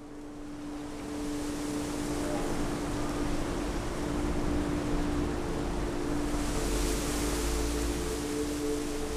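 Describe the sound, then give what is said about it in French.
A coastal storm at Pornichet, just ahead of a cold front, with 25–30 knot wind and heavy rain makes a dense, continuous roar. It builds over the first seconds, then holds steady over a faint low hum. “Aujourd'hui, il y a une belle petite tempête euh, qui passe. On est juste à l'avant d'un front froid. Euh, ça nous remet un peu en condition route de Rome. Il y a 25-30 nœuds, il pleut des cordes.”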